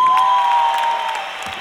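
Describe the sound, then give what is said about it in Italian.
Audience applause welcomes a Turin performer onto a stage, a steady wash of clapping with some cheering that thins and fades toward the end. “Accogliete con un applauso il coraggiosissimo artista torinese Alan Magnetti.”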